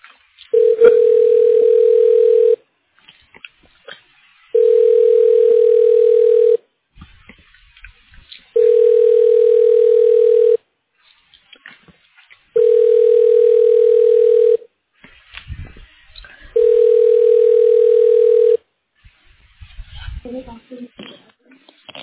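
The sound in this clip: Telephone line tone while a call is transferred: five steady, mid-pitched tone bursts about two seconds long, separated by gaps of similar length, with faint background noise between them.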